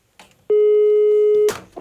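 A single telephone ringback tone on a prank call to a bakery, a loud, steady mid-pitched beep lasting about a second, framed by brief clicks and a short burst of noise as it ends.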